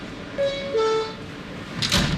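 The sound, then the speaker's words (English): Subway train doors closing after an announcement: a two-note descending door chime, followed by a short rush of noise as the doors shut. “Stand clear of the closing doors, please.”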